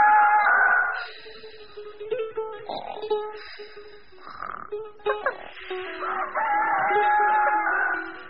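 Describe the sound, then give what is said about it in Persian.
A rooster crows in the early morning, with several drawn-out, tonal calls rising and falling, broken by shorter croaking calls in between. “صبح زود خروس شروع به خوندن کرد.”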